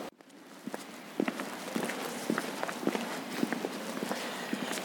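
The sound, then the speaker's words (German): Footsteps of people setting off on a walk across a town square in St. Gallen. Many light, fairly even steps tap at a steady walking pace over a constant hiss of background noise. “Gut, laufen wir los. Laufen wir los und nehmen euch mit.”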